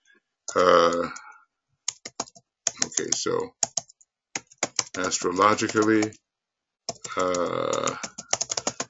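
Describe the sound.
Typing on a computer keyboard, with many quick, irregular clicks and short bursts of keystrokes between stretches of a voice talking.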